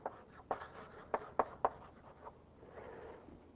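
Writing on a board during a lecture on differential forms: several sharp taps and scratchy strokes, some in quick succession, then a softer rubbing stroke, all quiet with no voice over them.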